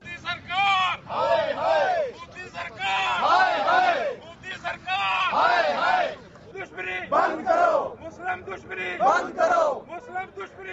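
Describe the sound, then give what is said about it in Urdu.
Journalists chanting slogans at a protest in front of the Islamabad Press Club: a crowd shouting in unison in a series of loud bursts, with brief gaps between the chanted phrases. “یہ نعرے جو آپ کو سنائی دے رہے ہیں، یہ آج اسلام آباد پریس کلب کے سامنے صحافیوں نے لگائے ایک احتجاج میں۔”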